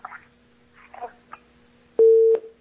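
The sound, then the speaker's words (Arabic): A telephone line tone after a call cuts off: a single loud, steady mid-pitched beep sounds briefly, following faint garbled voice fragments over a constant low line hum. “طيب طيب، انقطع اتصال الأخت خديجة”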